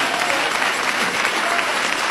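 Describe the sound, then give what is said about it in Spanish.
A church audience applauds in praise during a Spanish-language worship service. The clapping is dense and steady, continuous from start to finish at an even, moderate level. “Dale ese aplauso de alabanza a Cristo.”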